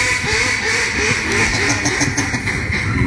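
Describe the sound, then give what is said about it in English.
Quacking from a duck call used as the secret sound in a guessing game, a continuous buzzy, nasal run of many rapid quacks, loud and alone without talk. “Yeah, we know it's a duck call.”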